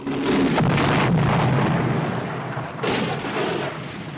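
A tank blows up from a satchel charge hooked onto its chassis: a loud, deep roaring blast that rumbles on, then surges again with a second burst near the end.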